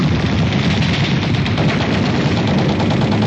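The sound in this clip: A dense gunfire barrage is aimed at someone in the woods, with bullets flying overhead: a loud, unbroken crackling roar of rapid shots with no distinct gaps.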